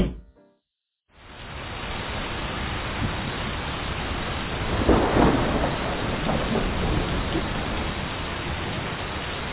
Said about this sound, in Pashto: بیا باران شروع شو او دا لوی باران سلویخ ورځې او سلویخ شپې وورېدو او ځمکه په اوبو پټه شوه.